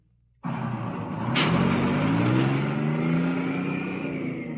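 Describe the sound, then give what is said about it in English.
Bus engine and road roar as a busload of draftees heads down a highway in southern New Jersey. The loud, steady drone starts abruptly, and its low engine tones shift slowly as the bus travels on. “You're in a busload of civilian draftees, headed down U.S. Highway No. 1 in southern New Jersey.”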